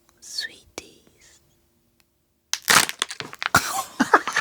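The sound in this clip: A package is unboxed right in front of a microphone in a studio control room. A faint whisper comes first, then after a pause loud crackling, crinkling and rustling of packaging bursts out in many sharp, irregular snaps.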